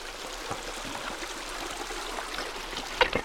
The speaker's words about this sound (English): what's making the most noise is that waterfall